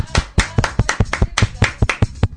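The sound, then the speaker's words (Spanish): Applause for a station director on a live Spanish-language show: many sharp, loud hand claps in a fairly steady, dense rhythm with no voices over them. “Un aplauso para Lorna.”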